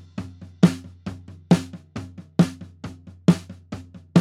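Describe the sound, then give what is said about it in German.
Snare drum track with a floor tom bleeding in: regular sharp snare cracks sit over a sustained low, booming tom resonance that rings between the hits throughout. “Also ich habe ja so einen Standtom auch mit aufgenommen, das klingt so.”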